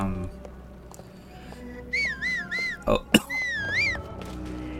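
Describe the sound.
Whistling by a video game character, heard as a few short wavy melodic phrases in a high tone over a low game background hum, with a couple of sharp clicks between them.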